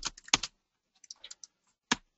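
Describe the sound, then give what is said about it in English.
Typing on a computer keyboard: short, crisp key clicks in irregular bursts, a quick cluster at the start, a looser run in the middle and one last isolated keystroke, fairly faint with silence between. “So what I can do here is just type out that slide.”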